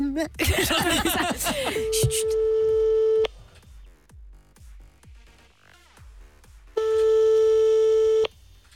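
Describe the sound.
A telephone busy signal after a dropped call: a voice speaks at the start, then two long, steady, loud beeps come with a pause between them, and faint clicks fill the gap.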